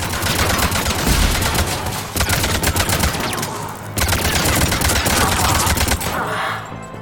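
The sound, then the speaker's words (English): Rapid automatic gunfire aimed at turrets in a video game, loud and continuous, in sustained bursts separated by a couple of short breaks. “Shoot these turrets.”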